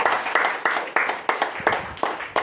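An audience at a Eucharistic celebration claps in a steady, even rhythm, each sharp clap ringing out over the last in a brisk series.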